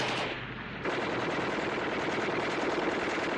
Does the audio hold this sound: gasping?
no

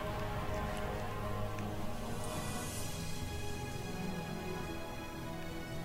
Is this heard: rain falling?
yes

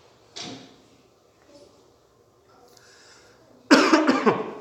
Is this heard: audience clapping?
no

